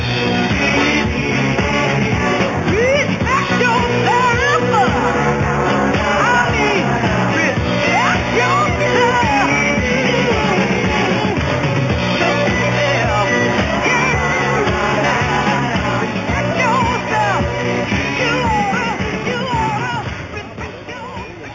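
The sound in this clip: Music by a vocal group plays loud and continuous, with singing and shouted vocal lines over a full band, and the level drops away in the last seconds.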